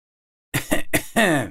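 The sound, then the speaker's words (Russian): A man coughs with staged casualness: three short, rough throat-clearing bursts followed by a longer voiced one, loud and alone. “Демонстративно небрежно кашлянул я.”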